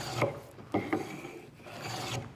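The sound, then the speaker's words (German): A Japanese hand plane is pulled across wood, making a few short, quiet rasping scrapes with brief gaps between the strokes. “Ein japanischer Hobel, wie jetzt der, der ist ausschließlich dazu gemacht, dass man auf Zug arbeitet.”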